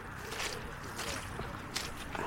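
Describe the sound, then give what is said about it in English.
Footsteps squelching through a very wet riverside meadow near the River Thames: a few soft, irregular wet squishes over a steady low rumble, with voices faintly present. “Yeah, so we're squelching through”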